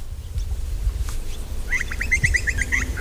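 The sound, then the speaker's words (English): Wetland birds call in a former swamp near Melbourne: a rapid run of bright, repeated chirping notes fills the second half, after a few fainter scattered calls over a low background rumble. “I am birding at the Seaford Wetlands in Melbourne, which used to be an old swamp”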